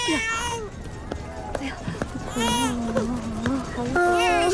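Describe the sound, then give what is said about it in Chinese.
Baby crying, a small child wailing in rising and falling high-pitched sobs and whimpers, with brief gaps between cries and a soothing adult voice speaking over it. “乖乖别哭啊，你马上就能见到爸爸了。”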